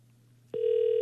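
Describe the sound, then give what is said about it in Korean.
Ringback tone of an outgoing phone call placed from a radio studio to a listener: faint line hiss, then a steady, loud, mid-pitched tone begins about halfway through and holds unbroken to the end. “꼭 좀 받아주셨으면 좋겠는데 극동방송에서 전화하는 겁니다”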